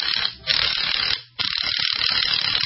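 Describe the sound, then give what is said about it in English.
Rapid ratcheting clicks of a wrench backing out a long screw to hang a sign, loud and dense, running in three bursts broken by two short pauses. “Oh, that was a long screw there.”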